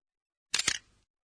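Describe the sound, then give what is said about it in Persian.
A camera shutter closes and opens once: a short, sharp mechanical clack heard alone, fading quickly into silence. “این صدای بسته و باز شدن شاتر دوربینه.”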